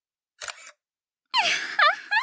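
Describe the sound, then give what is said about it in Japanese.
A camera shutter fires as a photo is taken: a short snap, a brief pause, then a longer, louder burst. “ついでに写真も撮るかな。”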